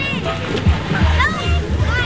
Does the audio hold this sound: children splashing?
yes